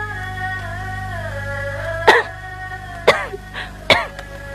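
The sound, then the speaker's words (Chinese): A few short, sharp coughs from a person with a lingering cough that keeps them awake at night. The coughs come spaced apart over a soft, sustained musical backdrop. “夜越来越长了，你一夜咳几遍，醒几次？ 昨儿夜里好了，只咳了两次”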